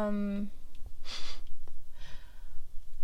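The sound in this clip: An odd mouth noise opens with a short, droning voiced tone, followed by breathy, snort-like puffs of air. The puffs are fairly soft and come alone in a loose, uneven rhythm.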